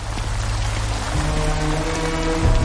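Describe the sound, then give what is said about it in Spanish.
Rain falls at night as a dense, steady hiss of drops, with a low hum beneath it and a brief louder splash near the end, with no voices. “De noche, Arthur camina cabizbajo bajo la lluvia.”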